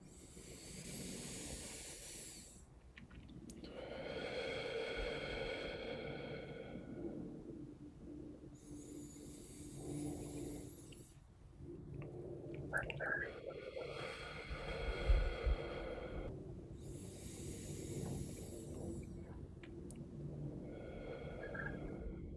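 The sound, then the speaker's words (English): A group takes deep breaths together: several slow, airy, hissing inhales and exhales, faint and evenly spaced, with brief quiet gaps between them. “let's just take three deep breaths.”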